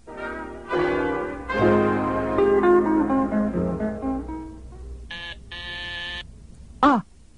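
A doorbell rings with a melodic chime of several tones stepping downward, followed by a brighter, sustained ringing burst and one short final tone.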